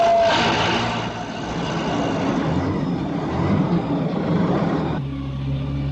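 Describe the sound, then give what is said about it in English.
A loader's engine at a mine starts with a loud initial burst and settles into a steady low rumble as the vehicle moves off. The tone drops to a deeper, smoother drone near the end. “Climbing into the cab, Bopper starts the engine, then moves out.”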